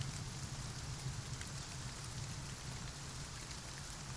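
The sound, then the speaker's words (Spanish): Rain beating against window panes, a faint, steady hiss of drops that stays even throughout with no voices or other sounds. “La lluvia golpeaba contra los cristales.”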